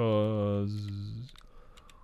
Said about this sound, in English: I can't talk and type at the same time very well.